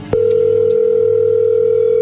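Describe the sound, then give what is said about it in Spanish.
A steady telephone tone sounds while a number is dialed again. It is a loud, unbroken, even pitch that holds for about two seconds after a brief click. “A ver, márcale otra vez. Déjame hablar con ella.”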